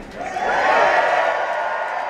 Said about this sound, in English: You got the crowd. I mean, I would say that's full crowd participation. 45 years of the Violent Femmes. Listen to that